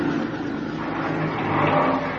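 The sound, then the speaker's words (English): Car wheels spinning in mud while the engine revs hard in a loud, steady drone that swells slightly toward the end, with no voices. “Mud. The wheels won't hold. You're just digging it in deeper.”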